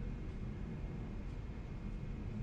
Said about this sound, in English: Hear that wind stuff? That's a plane going over my head. Oh, wow. That's loud.